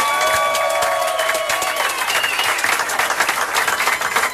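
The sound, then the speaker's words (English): A standing ovation from an audience welcoming a guest, with dense, sustained clapping and cheering that continue loudly and evenly throughout. “Oh, we got a little standing O going as well.”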